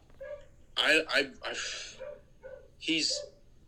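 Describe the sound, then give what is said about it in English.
Dogs barking, a few short yapping barks mixed in with people talking. “Okay, there's a dog. We both have dogs. They're just bitches. They're just making so much goddamn noise.”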